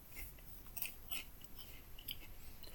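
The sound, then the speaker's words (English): Someone bites into a slice of toast and chews it, giving a few crisp, quiet crunches spaced unevenly. Soft mouth sounds fill the gaps between them, and no one speaks. “Right, let's bite in. Again, same with the bread, it's just what you expect. It's average toast.”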